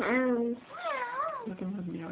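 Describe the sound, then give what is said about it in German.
A human voice imitates a cat meowing with a few drawn-out, wavering meow sounds that slide up and down in pitch, fairly loud and with no other sounds. “Die Katzen. Wie machen die Katzen?”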